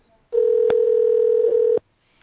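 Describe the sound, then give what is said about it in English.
A Skype call dialing tone sounds as one steady, loud, mid-pitched beep lasting about a second and a half, with a brief click partway through and another as it cuts off. “We're going to see if we can dial them back on the Skype.”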